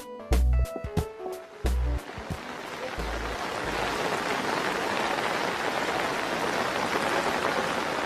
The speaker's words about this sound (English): What you just heard is the sound of rain falling in western India, captured by Reuters.